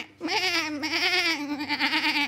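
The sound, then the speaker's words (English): A goat bleats on a farm kept with chickens, ducks, dogs, cats, pigs and cows: one long, loud, wavering call that starts abruptly and holds its nasal pitch to the end, with no talk over it. “two dogs, two cats, and a goat. And more goats.”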